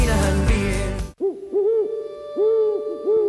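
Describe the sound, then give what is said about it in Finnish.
Owl hooting, a series of soft, low, rounded hoots with gently arched pitch following one another at an unhurried pace, heard alone after a louder passage cuts off. “Pöllöt valtaavat Limingan.”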